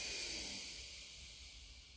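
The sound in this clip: A slow, deep breath drawn in during a guided relaxation exercise, heard alone as a soft, airy hiss that is strongest at the start and gradually fades over about two seconds.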